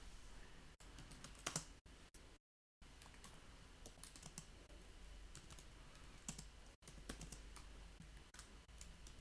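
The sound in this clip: Soft, quick keystrokes on a computer keyboard as someone types a short word into a file during a coding lesson. Many faint clicks run steadily, broken by a brief silent gap.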